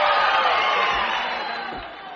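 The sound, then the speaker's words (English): Audience applause and cheering at the Grand Ole Opry country music show, a bright wash of clapping that starts loud and gradually fades away. “judging from the applause out here, I believe they like to have you here”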